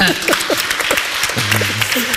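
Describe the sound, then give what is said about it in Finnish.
Audience applause at the close of a church-organised panel discussion: dense, steady clapping that holds at an even level throughout. “Eikös me anneta tälle aplodit?”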